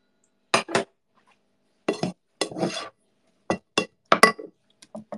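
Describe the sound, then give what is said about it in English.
Food is spooned onto a plate with curved edges in a series of short clinks and scrapes of utensil on ceramic, coming in small clusters separated by brief silences. “I have like a plate with like curved edges. So I call it a plate that's trying to be a bowl and failed. Woo!”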